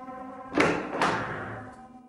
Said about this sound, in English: He opens a door.